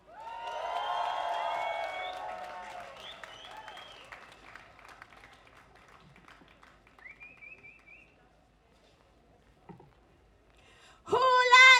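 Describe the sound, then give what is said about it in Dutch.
Applause and cheering from a crowd at a street rally for solidarity and against fascism. A loud swell of clapping and voices in the first few seconds fades into scattered sound, then a short sharp burst returns at the end. “Mag ik alsjeblieft een warm welkom en een heel hard applaus voor Hidaya.”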